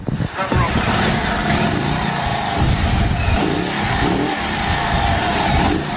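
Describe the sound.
Engine of a 1925 Indian Chief Sport Chief motorcycle revving: a loud, rough, continuous roar that holds steady through the whole stretch.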